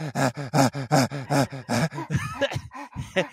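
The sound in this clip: A person pants heavily in a quick, steady run of voiced, moaning huffs, then breaks into more uneven, breathy gasps.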